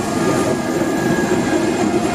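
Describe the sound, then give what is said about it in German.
An ICE high-speed train rolls through a rail depot as a steady, loud, unbroken rumble with a faint tonal hum over it. No voices are heard. “Hier rollt der ICE durch das Betriebswerk.”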